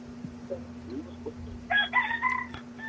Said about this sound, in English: Hey, that sounds like a healthy cock behind you.